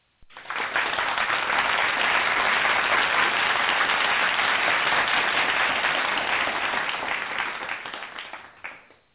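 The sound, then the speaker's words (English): Audience applauding as an evening's guest is welcomed: loud, dense, sustained clapping that starts abruptly, holds steady for several seconds, then tapers off toward the end. “Ladies and gentlemen, we want y'all to put y'all hands together, give a warm Truth Brothers welcome to our guest of the evening, Mr. Floyd Webb.”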